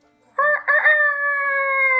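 A rooster crows once: a loud, harmonic call that begins with a broken, stuttering onset and then holds a long, steady note until the end.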